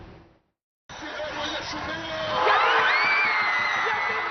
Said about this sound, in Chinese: 比赛当晚，在首都开罗，多地球迷举办了在屏幕前的观赛，为国家队加油助威。